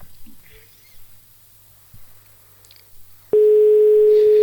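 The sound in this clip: A telephone line tone follows a lost call connection. After a few faint scattered clicks and rustles, a loud steady electronic tone cuts in abruptly and holds at one pitch to the end.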